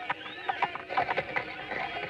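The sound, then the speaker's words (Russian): Horse hooves stamp and shift as a radio-play sound effect, making many soft, uneven clip-clop thuds at moderate volume with no talk over them. “Что лошадью топчешься-то?”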